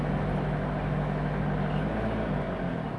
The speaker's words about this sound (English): we're driving along Hunter Street, Newcastle, the main drag. Some people say that this is more of a travel podcast, right? Traveling the world in a beige Toyota campervan.